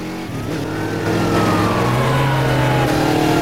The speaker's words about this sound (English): The pursuit continues along a coastal road. Two police cars have joined in the chase.